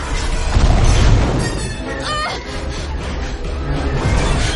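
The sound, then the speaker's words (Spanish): Loud booming blasts and a dense rushing roar as a TIE fighter fires at the Millennium Falcon inside a narrow tunnel in Star Wars, sustained and heavy throughout with no pauses. “Vuelan por un estrecho túnel. El Tai les dispara.”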